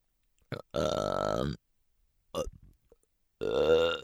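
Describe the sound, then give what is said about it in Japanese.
A person lets out a few voiced burps: one long, drawn-out, tonal belch in the middle, a shorter one near the end, and brief guttural bursts in between, loud against silence. “え、なんでゲップするのかって？しないと気持ち悪くなっちゃうんだよね。”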